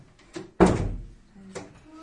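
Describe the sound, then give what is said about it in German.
A door is shut, landing as one dull, solid thud that stands out from quieter background sounds. “Tür zu.”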